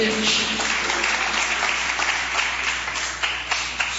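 Church audience applauding, a dense, steady wash of many hands clapping that continues at an even level throughout.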